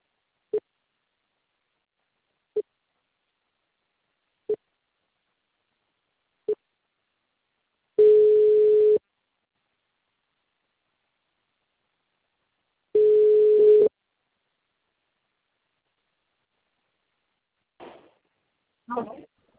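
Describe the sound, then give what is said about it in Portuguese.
Busy signal after a dropped phone call: four short evenly spaced beeps, then two longer steady tones at the same pitch, followed by brief voice fragments at the end. “a ligação caiu.”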